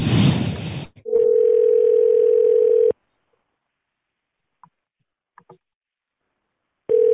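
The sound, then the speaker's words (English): Ringback tone of a telephone call ringing out: a steady, low, buzzy tone holds for about two seconds, falls silent for several seconds, then starts again at the very end. “Some ringing? Are we calling somebody?”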